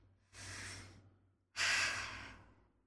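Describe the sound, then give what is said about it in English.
Two slow, deep breaths, each a soft airy rush that swells and fades; the second is louder and longer than the first, heard alone and quiet. “Deep breaths.”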